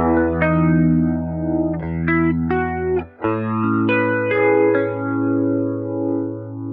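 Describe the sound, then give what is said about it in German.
A guitar runs through a slow-speed Leslie rotary speaker effect, placed after the amp with a fully wet mix. A series of plucked notes and chords rings out with a slow, swirling, wavering shimmer. “Eiert schon mal schön im Stereobild rum. Das also schwebt, mag ich. Und es klingt auch schon so ein bisschen krollig. Durch dieses Leslie-Profil, finde ich.”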